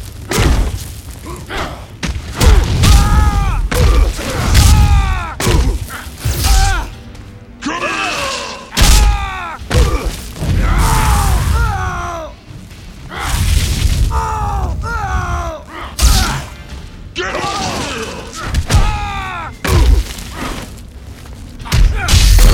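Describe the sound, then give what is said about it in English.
Heavy thuds, slams and booming hits from a fighting video game come in rapid, irregular succession, mixed with grunting vocal sounds over dense, loud game noise. “This game's a bit improved. Sounds like I'm fighting.”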